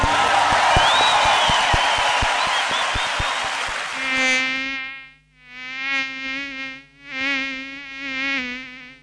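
A mosquito buzzing effect: a dense, high-pitched whining buzz fills the first half, then gives way to pulsing harmonic tones that rise and fall in a few swells.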